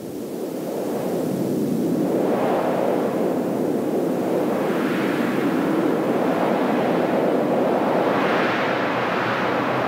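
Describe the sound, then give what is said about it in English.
Wind blows in a loud, steady roar that swells and eases in broad gusts across about ten seconds, with no voices. “And Ruach sounds like this, just wind.”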